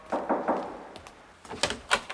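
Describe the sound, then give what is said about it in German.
Knocking on a door: a first run of three firm raps, then after a pause a second, quicker group of knocks. “Die Klingel ist kaputt. Dann klopf.”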